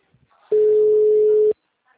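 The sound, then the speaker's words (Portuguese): A single ringback tone during a telephone call: one steady, mid-pitched beep lasting about a second, heard alone without talk. “tá chamando, tá?”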